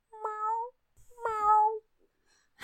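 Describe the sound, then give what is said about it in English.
Two drawn-out cat meows on a ghost-hunt audio recording made at a music club, each lasting about half a second with a short pause between them. Both are clear, tonal and moderately loud, and a faint click follows near the end. “But honestly, to me, it sounded like a cat. It was like,”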